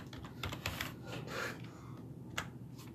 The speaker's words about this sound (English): All right. Type fast, son.